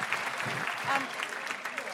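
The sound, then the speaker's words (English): Audience applause for a person at a live event: continuous, dense clapping from many hands at a moderate level, lasting about two seconds. “Big round of applause for Jess.”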